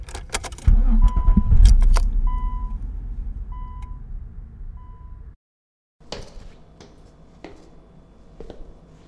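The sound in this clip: A car starts and pulls away: a deep engine rumble swells loudly, with clinking and a few short high beeps over it, then eases off and stops. After a brief silence, softer knocks and rattles follow.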